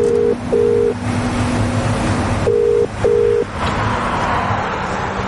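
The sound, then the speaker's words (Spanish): Telephone ringback tone as a call goes through: two double rings, each pair made of short, steady buzzing tones, with a longer pause between the pairs, over a low constant hum. “Entonces hace otra llamada.”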